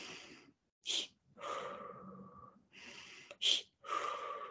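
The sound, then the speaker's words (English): A person demonstrates a cat-hiss breathing technique. Long, airy breaths are broken by two short, sharp hissing bursts as the voice imitates a cat's hiss; no talk. “Oh, I haven't heard of the cat hiss breath. It's so funny. It's like, what is it? You go, you breathe in, and then you do this little like, and then out.”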